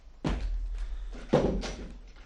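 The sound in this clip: A door being closed, heard as two dull low thuds about a second apart with a soft rumbling tail.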